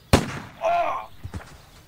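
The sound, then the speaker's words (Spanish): A single shotgun shot during a hare hunt in a radio drama: one sharp, loud crack at the start, followed by a brief raised voice and a few fainter sounds. “¡Cielo santo! ¡Le he dado a un peón! ¡Qué estupidez ponerse frente a las escopetas! ¡No disparen!”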